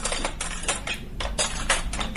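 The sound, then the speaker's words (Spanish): Cutlery and plates are laid out as a table is set: a quiet, irregular run of many light clinks, taps and clatters, sharp and brief, with no voices. “Hola hija, ayúdame a poner la mesa, por favor. Pon tú los cubiertos y yo pongo los platos.”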